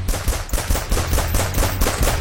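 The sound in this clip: Gunfire sound effect in an advert for firearms, ammo and optics: many loud, sharp shots in a fast, continuous burst like automatic fire, with no voices.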